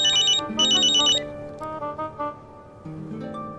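A telephone rings in two short, bright, trilling bursts at the start, fairly loud. Quieter steady tones continue after the ringing stops.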